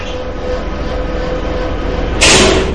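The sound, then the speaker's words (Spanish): A freight lift hauls food up to a catering kitchen with a loud, steady mechanical rumble, broken near the end by a sudden, brief hissing burst. “Más tarde, un montacargas transporta alimentos hasta la cocina de un negocio de catering, al que llegan los detectives Rey y Bettiger.”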